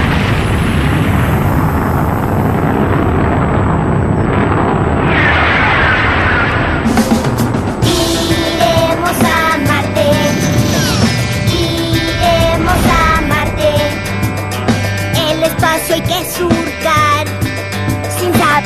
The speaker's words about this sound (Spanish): Comandante de la nave Uniqua, lista para despegar. 2, 1, despegue.